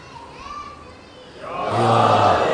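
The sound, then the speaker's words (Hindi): Children's voices chant the Nara-e-Haidari slogan at a religious gathering. Thin voices at first swell into a loud, sustained group shout. “अब ये बच्चे भी जो नारे हैदरी बोल रहे”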